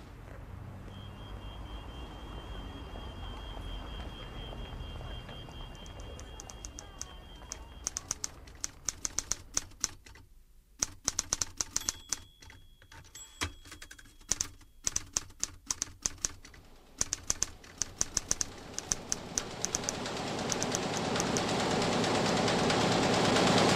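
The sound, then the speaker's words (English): A newspaper printing press runs at 38,000 copies per hour, a continuous mechanical roar layered with many rapid, sharp clattering clicks that grows louder and denser toward the end. “At the moment, the press is running at 38,000 copies per hour, which works out roughly at about 10 full newspapers”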